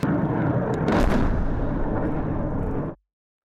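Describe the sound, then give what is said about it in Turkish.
Multiple rocket launchers and howitzers firing on regime forces make a dense, continuous roar of heavy fire that lasts about three seconds at steady loudness, then cuts off abruptly into silence. “Onların belirlediği koordinatlar çok namlulu roket atar ve obüslerle imha ediliyor. Hem gündüz hem gece rejim güçleri aralıksız vuruluyor.”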